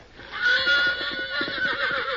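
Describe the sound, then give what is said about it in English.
A mean, ornery horse whinnies in one long, loud, quavering neigh that trembles rapidly for about two seconds, heard alone without voices. “Ornery, no good hunk of horse meat.”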